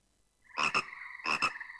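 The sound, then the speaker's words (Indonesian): Frog croaking while sitting on a lotus leaf: two loud rasping calls, each made of two quick pulses, separated by a short pause after a quiet start. “Ada seekor katak yang sedang duduk bersantai di atas daun teratai. Masya Allah, indah sekali ya suaranya.”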